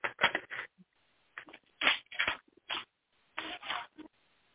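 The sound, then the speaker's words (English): A tarot card being pulled from the deck during a reading: several brisk papery rustling and sliding bursts separated by short silences, fairly loud and heard alone. “So let me just pull one more card for you.”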